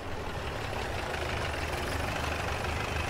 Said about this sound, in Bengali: বিকেলে পরপর দুটো গাড়ির আওয়াজ পেয়ে বুঝলাম অতিথিরা এসে গেছেন।